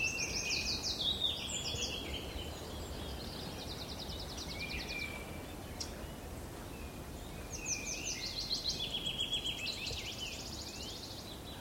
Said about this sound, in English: Ah, there's a wood warbler.